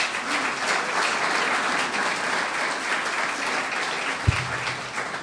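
An audience applauds to welcome the Consuls General of Germany and Israel as panel guests. Dense, even clapping carries on steadily throughout, with one brief thump near the end.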